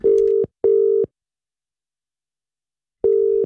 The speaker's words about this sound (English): we're going to give him a call, find out exactly what is going on.